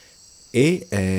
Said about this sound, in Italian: dai suoni della fauna tropicale notturna in Costa Rica. Stasera, tanto per cambiare, abbiamo solo grilli.